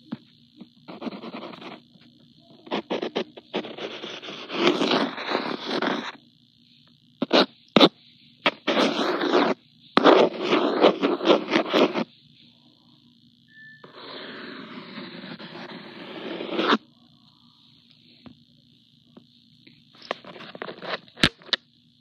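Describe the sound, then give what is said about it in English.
Eraser rubbing out a drawing outline on paper: many bursts of dry, scratchy rubbing in uneven strokes, some long and some short, with brief pauses between them and no voices. “so I need to erase the outline and make the base.”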